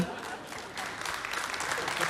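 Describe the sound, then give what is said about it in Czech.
Lukewarm audience applause at a televised entertainment show: thin, steady clapping, fairly quiet, that rises slightly toward the end. “Ano, i ten potlesk byl takový vlahý”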